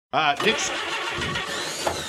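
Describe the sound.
An old seafood truck's engine cranks without starting: a continuous, rough mechanical churning begins abruptly and grinds on at an even level to the end, never catching into a running idle.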